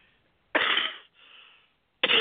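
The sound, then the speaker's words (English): Harsh coughing from a speaker giving a talk: a strong rough burst, then a weaker raspy tail, then another sharp cough starting at the end. No speech is heard. “I really apologize for this cough.”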